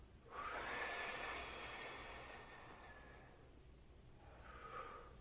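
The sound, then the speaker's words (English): A slow breath is blown out in a long, soft, airy rush lasting a few seconds, followed by a second, shorter exhale. It is quiet and heard alone, with no voices. “And I'm going to erase the contours of your room with my breath. I'm going to blur out with each breath the contours of your room.”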